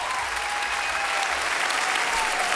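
Sustained applause from a standing audience at Studio 104 of the Maison de la Radio after a live song, a dense, even roar of clapping with no voices.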